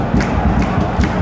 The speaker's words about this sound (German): Und was ist denn das? Beifall, ja.